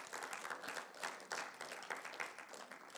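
A person claps quickly and steadily in a continuous, fairly faint run, with no pause in the rhythm.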